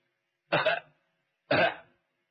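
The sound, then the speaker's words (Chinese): Someone outside coughs twice, two short harsh bursts about a second apart, with nothing else heard around them. “心正想着，外头有人咳嗽。”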